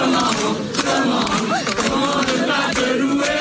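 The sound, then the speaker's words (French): Cheering crowd of faithful acclaiming Pope Leo XIV at an open-air mass on Place de la Concorde, a loud, continuous roar of many voices with shouts rising out of the mass and a few sharp bursts throughout. “Le pape, acclamé par des fidèles comblés, et certains avaient même fait le déplacement depuis le continent.”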